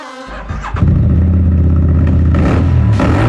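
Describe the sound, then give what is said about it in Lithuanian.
A Vouch Street Adventure motorcycle engine revs. The loud, low rumble swells within the first second, then holds a steady, throaty drone with a few brief bursts of higher revving. “Jauti tą trauką? Tai Vouch, tavo naujas kelionių draugas. Street Adventure motociklas ar motoroleris.”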